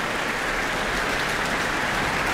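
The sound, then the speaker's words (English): Applause from a concert audience in a town hall after a performance of the Mendelssohn Violin Concerto, a dense, steady wash of clapping that holds at an even level throughout, with no voices over it. “Lots of applause here in the town hall. And enthusiasm from the orchestra too, who are stamping their feet for Bielman to come back to the stage.”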